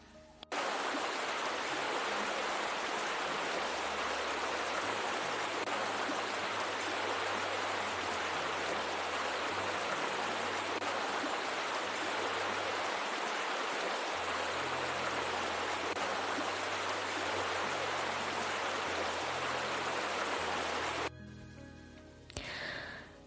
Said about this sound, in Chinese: 洗个热水澡还是很舒服的。